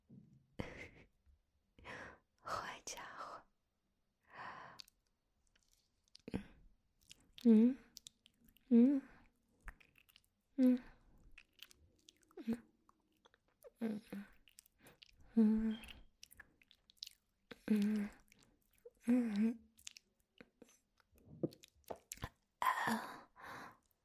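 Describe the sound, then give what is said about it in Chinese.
Wet mouth chewing and biting noises, a voice imitating someone eating fingers, come as many short soft bursts with breathy sighs between them, spread steadily through the whole stretch. “我吃你的手指，你有什么感觉啊？”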